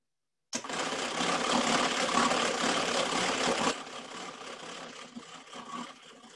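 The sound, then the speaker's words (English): A geared hand-crank mixer whips mousse with a steady mechanical whirring and rattling that starts abruptly. It runs loud and even for about three seconds, then continues softer and more uneven. “You can make the mousse, and if it gets a little harder to turn, you could turn it to the second gear, and then it goes easier.”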